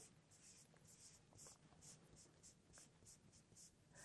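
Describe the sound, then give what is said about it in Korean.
Pen strokes scratch on paper as an answer is written on a worksheet about separating paper and paper cartons for recycling: a steady run of many short, dry scraping strokes in an uneven rhythm. “그럼 여기다가 종이와 종이팩을 따로 버리지 않았다라고 써주면 되겠네요.”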